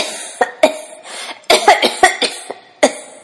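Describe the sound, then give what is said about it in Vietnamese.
A wounded woman with knife and bullet wounds has a choking coughing fit. Many harsh, loud coughs come in ragged bursts with a few short gaps, some tight and rasping like throat clearing. “Cơn ho sặc sụa các câu nói của La Da Pla”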